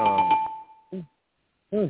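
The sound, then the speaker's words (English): A bell struck once rings out with a bright, clear tone that fades over about a second, overlapping talk at the start, followed by two short spoken bursts. “Let me just hit this bell. I'm just hitting this bell. Okay. Let me hit the bell again.”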